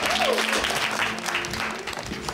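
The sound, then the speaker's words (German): Audience applause: a dense, fairly soft patter of many hands clapping continuously, with a brief rising voice-like tone near the start. “Also, Applaus für einen guten Freund.”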